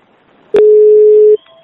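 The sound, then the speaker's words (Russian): A single loud, steady mid-pitched telephone tone sounds for under a second as a call is being transferred, then fainter, softer tones follow. “Я сейчас переключу телефон, вот вы там поговорите.”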